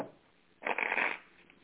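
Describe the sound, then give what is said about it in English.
Cards shuffled and drawn for a New Year card reading: a brief, soft riffling burst swells for about half a second, then fades back to quiet rustling. “All right, I'm drawing your cards.”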